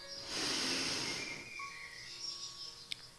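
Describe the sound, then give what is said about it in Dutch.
A slow, deliberate breath drawn in through the nose during a guided relaxation exercise: a soft, airy hiss that swells for about a second, then fades into near quiet with faint tones and a tiny click. “En dan ga je vijf keer heel bewust ademhalen. Door je neus in”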